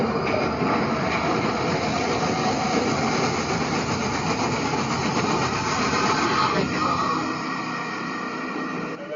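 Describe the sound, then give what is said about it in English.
A roller coaster launch sequence with a monster-like rumble: a dense, loud, steady roar of low mechanical noise that runs throughout and eases slightly in the final second. “there's a little rumble of a monster, like something coming out, and then we're going to the launch. So the idea at this point is it's the launch of the coaster as well.”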